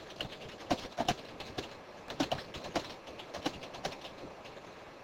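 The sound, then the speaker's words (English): Typing on a computer keyboard into an on-screen text box: many quick, irregular key clicks, fairly faint, with short bursts and pauses and no talking. “There's my little text box, and I should be able to type into this box.”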